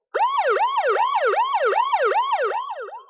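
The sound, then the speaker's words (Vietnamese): A piercing alarm siren sounds through the floors of a survival base. Loud, rapid wailing sweeps rise and fall in pitch in a steady repeating cycle, then thin out slightly at the end. “Còi báo động chói tai trong nháy mắt vang lên trong các tầng lầu ở căn cứ sinh tồn.”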